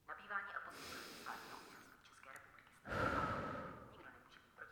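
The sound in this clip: Slow breathing in and out during a guided relaxation exercise: two soft, airy breaths, the second louder and longer, trailing off gradually, with faint murmuring around them.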